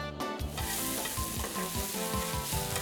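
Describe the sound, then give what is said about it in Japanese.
Yaki udon sizzles on a street stall griddle: a dense, steady hiss of frying runs throughout, overlaid by a rhythmic series of scraping strokes as the noodles are stirred and turned. “うどんの里中の熱々の焼きうどんはいかがですか？”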